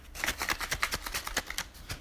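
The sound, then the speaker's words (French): Folded paper slips rattling inside a box as it is shaken, a faint, rapid series of dry rustling bursts in an uneven rhythm. “Alors, je referme la boîte et je resecoue la boîte.”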